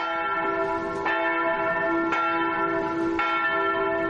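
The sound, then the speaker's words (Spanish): A church bell rings in a convent church with three slow, evenly spaced strikes. Each rich, resonant tone sustains and overlaps the next, with no talk. “En la iglesia del convento, Ana toca la campana.”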